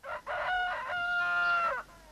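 A rooster crows before dawn, its second crow of the morning. A brief opening note is followed by one loud, sustained crow with a steady, harmonic tone that cuts off cleanly, heard alone.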